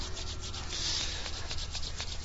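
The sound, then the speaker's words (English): Hands rub together in a slow relaxation exercise, a quiet, steady dry friction that swishes continuously with faint rhythmic strokes. “Rub your hands a little bit.”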